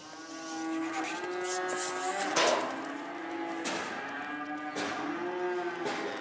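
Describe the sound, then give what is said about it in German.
Young cattle moo repeatedly as they are driven onto a transport trailer on a farm, with several long, loud lowing calls overlapping and a dull thump partway through. “Heute hilft sie zum Beispiel ihren Mitarbeitern dabei, Jungtiere auf einen Transporthänger zu treiben. Die bringen wir jetzt hoch in den nächsten Stall und da kommen die auf die Wiese.”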